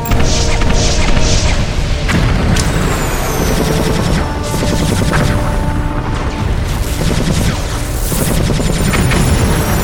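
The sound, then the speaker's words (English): Spaceship weapons fire in a battle against human-crewed ships: a dense, loud barrage of overlapping booms, crashes and rapid gunfire-like blasts that continues without a break. “Let's make sure they don't get a clear shot at the ship. Fire at will.”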